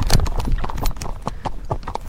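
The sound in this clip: Hooves clop steadily as a driven horse walks, each sharp clop loud and clear in an even, unhurried rhythm.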